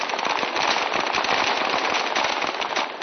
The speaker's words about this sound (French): 7 avril 2010, en plein centre de Bishkek, des milliers de Kirghizes sous les balles des snipers et des forces spéciales marchent sur le palais présidentiel.